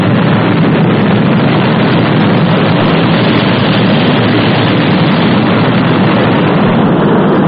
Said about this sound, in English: I fired the motors, and Thunderbird 1 surged upwards into the daylight.